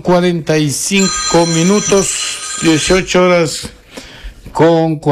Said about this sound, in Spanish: Atiéndame el teléfono, por favor, y deme silenciando porque me interrumpe en pleno noticiero.